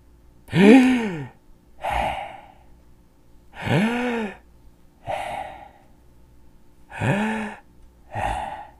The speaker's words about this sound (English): Let's take 3 big breaths, everybody, and think of 3 good things, okay? Here we go.